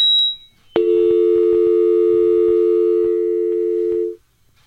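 A telephone line tone sounds after a caller hangs up. A brief high beep comes first, then a steady, loud tone holds for about three and a half seconds before it cuts off.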